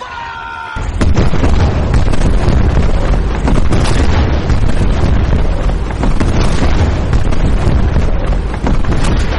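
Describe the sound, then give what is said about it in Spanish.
Naval cannons bombard Odaiba island off Tokyo from Perry's black ships. After a short quiet start, loud, dense and continuous booms and bursts rumble without pause for about eight seconds. “¡Eh! No atacan la ciudad, están concentrando el fuego sobre la isla de Odaiba. Pero es muy extraño, no están impactando en las defensas, los proyectiles tan solo llegan unos pocos metros de la costa.”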